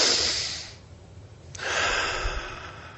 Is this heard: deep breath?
yes